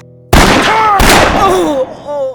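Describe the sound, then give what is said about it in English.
Two loud gun blasts roar in a close shootout, each with a sharp onset followed by a long ringing decay that fades before the end. “The guns of Pete Harris and Charlie Starr roared.”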